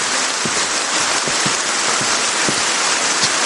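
Steady rain falls in a small wood, a dense, even hiss with soft drop patters scattered through it and no voices.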